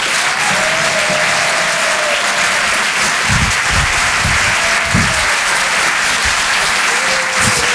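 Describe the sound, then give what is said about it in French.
A comedy-show audience applauding as a comedian is welcomed on stage: steady, dense clapping, loud and continuous throughout. “Faites un maximum de bruit, s'il vous plaît, pour Sébastien Wüst”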